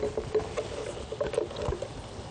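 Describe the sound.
Peanut satay sauce for gado gado vegetables being poured into a bowl and scraped out with a rubber scraper: a quiet, continuous run of soft, wet, irregular scrapes and squelches with no voices.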